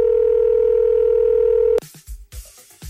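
Steady, loud, unbroken telephone dial tone holds for almost two seconds, then cuts off abruptly as dialing begins, followed by a few short, irregular, sharper bursts.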